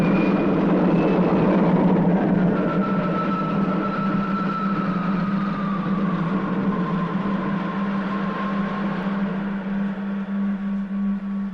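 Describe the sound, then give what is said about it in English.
Spacecraft engines roaring during takeoff: a dense, continuous roar over a steady low drone, with a high whine that slides gradually downward in pitch as the noise holds for over ten seconds. “Unit gaining speed. All in order. ready to lift. Takeoff program starting now.”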